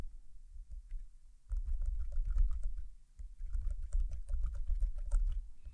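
Many rapid clicking keystrokes as a sentence is typed on a braille keyboard, quiet and fairly steady, in two bursts split by a brief pause, with no talking.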